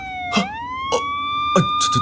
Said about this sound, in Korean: 응수형, 소방차, 불?